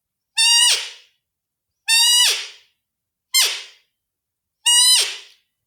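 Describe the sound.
A human voice imitates a roe deer doe's call. Four separate squeaky, whistle-like peeps are each about half a second long, and each ends with a sharp downward pitch drop. Silent gaps of roughly a second fall evenly between them.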